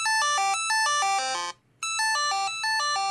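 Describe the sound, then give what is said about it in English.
Slowed-down sound effect from the Mario Bros. video game: a bright, chiming sequence of stepped tonal notes, played in two runs separated by a brief silence. “Oh, that noise. Oh, yes. That's from Mario Bros. Listen again. Here it is, slowed down.”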